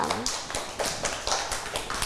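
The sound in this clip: Children clap for a classmate in a class, with quick, fairly even bursts of hand claps in a loose rhythm and a voice briefly audible at the start.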